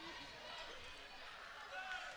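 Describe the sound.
A basketball is dribbled on the court during a game between USA and Flint Beecher, faint bouncing thumps under steady crowd noise and talk.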